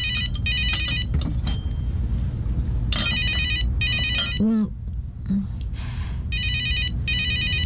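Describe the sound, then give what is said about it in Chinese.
A telephone bell rings in repeated bright trilling bursts during a family meal at home, with people talking between and under the rings. “有电话， 你们都不接，我去接喽。”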